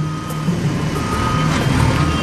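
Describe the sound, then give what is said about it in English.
Reversing beeps from a bulldozer backing up while clearing a road alongside a backhoe: a steady, high electronic tone over a loud, continuous heavy-engine rumble. “The bulldozer's backing up and pushing stuff off to the side.”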